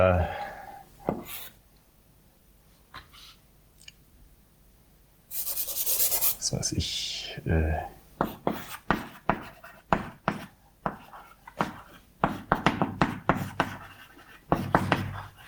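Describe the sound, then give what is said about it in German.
Scratchy, rubbing strokes of formulas being written on a board during a lecture on logic axioms: a few short scrapes, then a longer, louder stretch of rubbing, followed by a lecturer talking. “Ich schreibe einfach mal intuitive Formeln hin, die man da schreiben kann”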